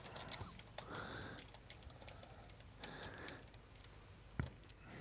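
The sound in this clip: Typing on a computer keyboard to enter a Google search: faint, scattered key clicks at an uneven rhythm, with one sharper tap near the end.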